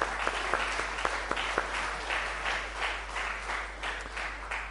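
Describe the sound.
Audience applause, a dense, steady clatter of many hands clapping with a few sharper individual claps standing out, fairly loud and continuing throughout without any voices.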